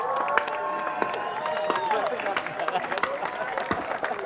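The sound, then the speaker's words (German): A festival audience applauds a staff member, scattered claps and crowd noise running beneath a speaking voice at a fairly low level. “Bitte einen riesengroßen Applaus an meine Kollegin.”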